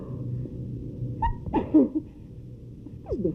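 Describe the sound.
A person sneezes in a single sharp, breathy burst partway through. Low background noise runs under it, and a brief squeak follows near the end.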